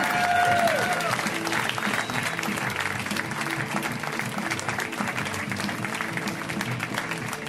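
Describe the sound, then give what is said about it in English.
Applause from a stand-up comedy audience welcoming a comedian to the stage: dense, continuous clapping mixed with crowd noise, loud and sustained throughout. “Let's hear it right now, Mr. Greg Barris. Guys, give it up for him.”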